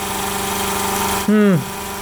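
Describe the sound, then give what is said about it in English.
A small floor pump pulling from a milk tank runs dry. Its steady, low motor hum breaks into a brief, louder sucking surge that drops in pitch, then the hum settles back. “So it's this little tiny floor pump that's pulling it out of this milk tank. Ooh, the sound, it was just dry sucking.”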